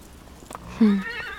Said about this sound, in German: Offenbar führt der Weg zu einer Farm. Man sieht ein grasendes Pferd.